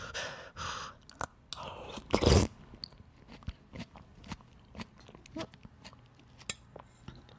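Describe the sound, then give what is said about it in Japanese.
Someone tasting homemade vegetable soup with celery, seasoned with consommé, salt and pepper: many faint chewing and crunching sounds and soft breaths, with one louder burst early on. “本当に塩コショウとコンソメスープしか入れてないので、コンソメしか入れてないんで、どんなもんかと味見をしていきますけども、いただきまーす。”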